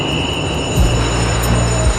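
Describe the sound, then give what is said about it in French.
A train at a railway station platform, a low rumble with steady droning tones that grow stronger partway through, plus a thin high whine. No voices are heard. “On est sur un quai de gare.”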